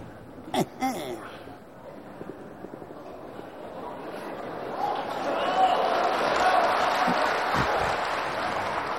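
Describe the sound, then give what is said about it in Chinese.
Audience applause at a Chinese crosstalk comedy performance: after a few brief voices and sounds, clapping swells in and builds to a broad, sustained patter that continues to the end. “鼓掌的都是明白的观众，一看就像个专业的相声演员。”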